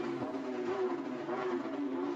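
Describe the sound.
Porsche Carrera Cup race cars roar down Lakeshore Boulevard in Toronto during a 2022 race, giving a steady, continuous engine drone with no talk.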